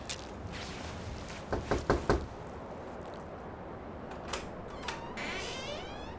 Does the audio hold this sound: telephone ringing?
no